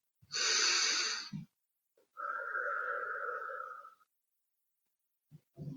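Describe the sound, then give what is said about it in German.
Deep slow breathing: one long, airy inhale, then after a short pause a longer, steadier exhale with a soft hum to it, and the start of another breath at the end. Quiet and alone. “atme mal ganz tief ein und wieder aus.”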